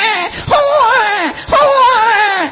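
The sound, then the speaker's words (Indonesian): A voice imitates a newborn baby crying during a religious talk, giving two loud, wavering, high-pitched wails of similar length, each swooping down at the end. “Suarane napa niku, Bu? Bayi jare.”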